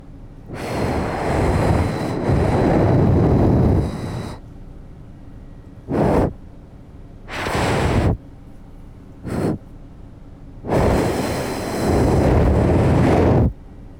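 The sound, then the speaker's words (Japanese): Breath blown onto a microphone during an ear-cleaning roleplay comes as five rushing, windy gusts: a long blast lasting nearly four seconds, then shorter puffs of varying length separated by brief silences, with a final long blow. “あとは息を吹きかけて飛ばしていくね。”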